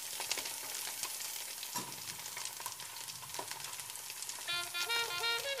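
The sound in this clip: Sizzling of bacon, garlic and onion frying in a pan: a steady, broad hiss with scattered crackles and a few sharp clicks throughout.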